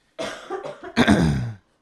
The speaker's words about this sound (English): I'm going to back away from the mic and cough my brains out right now.